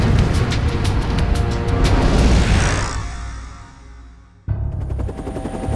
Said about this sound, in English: Emma launched a portside forward-firing missile. The enemy aircraft vaporized, and Emma Shaw